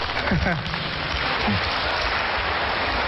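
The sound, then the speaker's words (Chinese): An audience warmly applauds a pair of crosstalk comedy performers, sustaining steady, dense clapping throughout, while a voice speaks briefly over it near the start. “谢谢大家给我们这么热烈的掌声。”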